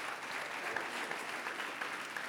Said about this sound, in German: Wir geben einen Applaus.